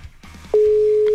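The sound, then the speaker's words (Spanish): A WhatsApp call ringing tone starts after a brief stretch of faint background noise. It sounds as a steady, loud, single-pitched tone that holds unchanged to the end. “Ahí sí está sonando. Ojalá nos conteste.”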